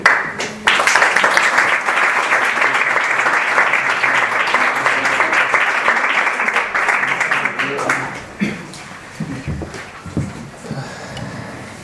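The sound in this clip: Audience applause for the performers at a bookshop event: dense, even clapping that holds for about eight seconds, then thins out and fades as a voice begins speaking.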